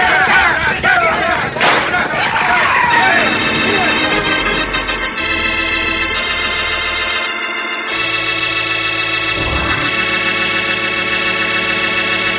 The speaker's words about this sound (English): Use your guns. If you have to, shoot them.